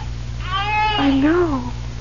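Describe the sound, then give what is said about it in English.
An infant's thin, wailing cry comes from a hand-carved crib in a dark room, with a couple of short mewling bursts that waver and bend in pitch over a low, steady hum. “tell me you hear what I hear. A baby crying right here in this crib.”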